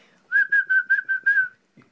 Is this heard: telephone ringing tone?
no